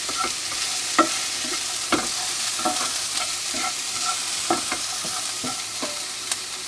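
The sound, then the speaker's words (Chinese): Onions stir-fried in a pan for a shrimp and pork white-sauce pasta give a steady, hissing sizzle, broken by many sharp scraping strokes of a spatula on the pan. No voices are heard. “好，我们先让洋葱稍微炒软。”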